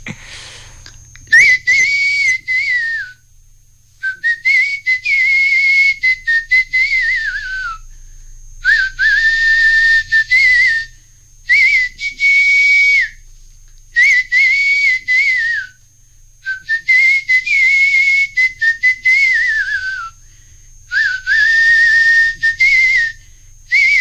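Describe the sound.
A person whistles the tune of traditional wedding verses (mangalashtak), a loud, clear, high melody in many phrases separated by brief pauses, with no talking.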